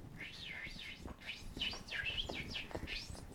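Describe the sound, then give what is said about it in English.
A bird chirps outside near Salisbury Crags, a quick run of high, sweeping chirps repeating steadily over soft background noise, with no talking. “That's the sound the birdie makes.”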